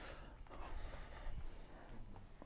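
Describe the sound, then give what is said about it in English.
Ujjayi breathing during yoga practice, a soft, hissing, throat-constricted breath drawn in slow waves, faint and without other sounds. “It's from ujjayi breath.”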